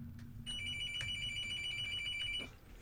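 A telephone rings with an incoming call: a single electronic ring of about two seconds, with a bright, high, warbling tone, fairly faint over a low background hum.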